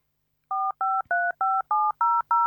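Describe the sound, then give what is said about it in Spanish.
Seven touch-tone dialing beeps as a telephone number is entered, each a short, clean dual tone in a steady, even rhythm, with no voices. “Ahí está, llama. ¿Estás llamando? Llama, dale, llama ahora.”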